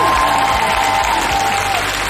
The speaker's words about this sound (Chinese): 掌声有请